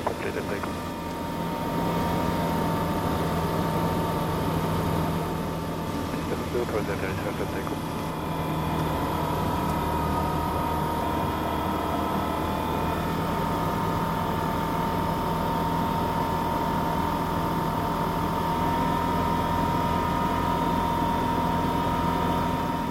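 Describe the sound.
Light aircraft engine on final approach to a runway: a steady, continuous droning hum with sustained tonal lines, holding an even level throughout.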